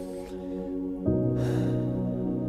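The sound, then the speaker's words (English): Relaxing spa music plays back as soft, sustained, steady tones, with a new, slightly louder chord entering about a second in and holding to the end. “So let's play this lovely spa music I have. There it is.”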